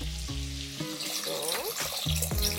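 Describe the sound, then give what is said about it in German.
Broth is poured into a pot of pasta ingredients with capers, olives and chili, a steady, continuous splashing pour that runs the whole length without pause. “Da kommt jetzt einfach nur Brühe drauf.”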